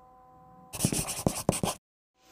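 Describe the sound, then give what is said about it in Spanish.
A pencil scratches across paper as two perpendicular lines are drawn: a quick cluster of dry, scratchy strokes lasting about a second, with quiet before and after. “agarró un trozo de papel para dibujar sobre él dos rectas perpendiculares.”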